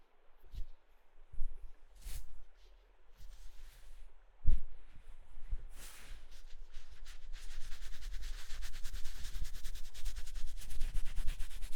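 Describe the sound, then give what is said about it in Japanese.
Rubbing and patting of a towel drying something after the water has been squeezed out: a few soft thumps early on, then steady scrubbing friction that grows fuller and denser toward the end, with no voices. “ギュギュッと水気を切ったら、しっかりタオルドライして”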